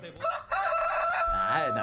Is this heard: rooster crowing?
yes